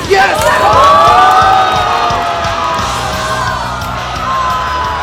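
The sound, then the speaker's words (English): Crowd cheering at a Rubik's cube competition after a world record is broken. Loud excited yells and whoops rise at the start, then settle into a sustained mix of shouting voices. “And when they realized he broke the world record, they cheered.”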